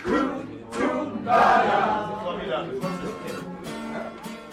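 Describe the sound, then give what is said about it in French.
An audience at a Parisian café-concert cheers and shouts, swelling loudest near the middle, with voices mixed throughout. “Un air de guitare, un chanteur à dreadlocks, un public qui réagit au quart de tour.”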